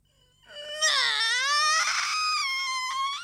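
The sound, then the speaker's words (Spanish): A girl crying in a Spanish-dubbed scene: one sustained, high-pitched sobbing wail that swells in after a quiet start and holds loud with a wavering pitch to the end, with no talking. “No llores.”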